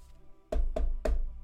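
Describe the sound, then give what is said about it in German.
Three hard knocks on a door in a role-playing game scene, evenly spaced, deep and thudding, with no voices. “ihr werdet geweckt mehr oder weniger von einem harten Klopfen an die Tür.”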